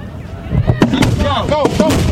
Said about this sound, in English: Meanwhile, the rest of the country will enjoy the fireworks.